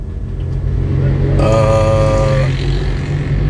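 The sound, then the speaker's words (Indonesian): A bus engine rumbles as the bus stops to wait behind a parked car, a steady low drone with a short stretch of stronger whining engine tone in the middle before settling back. “Jadi tadi ada bis satu yang berhenti memang ngetem di belakang saya.”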